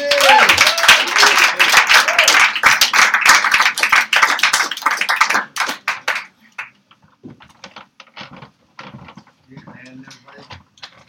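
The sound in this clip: An evening audience bursts into dense applause for about five seconds, then the clapping thins out to scattered, uneven claps.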